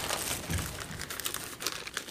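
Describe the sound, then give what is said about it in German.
Crinkling rustle of a bag as its contents are poured onto a rusty metal plate, a steady papery crackle with several sharper clicks scattered through it. “Er schüttet den Inhalt der Tüte auf die rostige Platte.”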